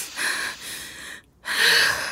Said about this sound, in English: Come on, in through your nose. Out through the mouth.